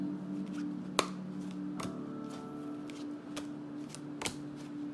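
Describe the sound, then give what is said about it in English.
Playing cards are drawn and handled from a deck during a card reading, giving a few soft, crisp snaps and flicks over a steady low hum, with no talking. “Let's pull a card out from the middle of the deck. And let's get some other cards going here.”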